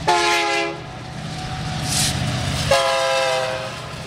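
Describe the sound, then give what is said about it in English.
A freight train rumbles past with a steady, heavy roll, and its horn sounds two long, loud, harmonic blasts, one at the start and one near the end. “freight trains that rumble by here every 20 minutes or so sound like this.”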